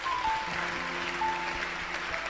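A church audience claps its hands together, producing a dense, steady wash of clapping that stays at an even level throughout, with no distinct pauses.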